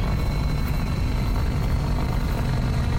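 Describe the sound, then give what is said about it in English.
An RC helicopter's rotor head purrs as the model descends: a continuous, loud, even whirring roar with no break or noticeable change in pitch. “when you can hear what I refer to as the rotor head making a purr noise as it comes down”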